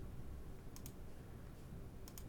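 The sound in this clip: A computer mouse clicks in two quick double-clicks about a second apart. The clicks are sharp, light and faint against a quiet background, with no talking.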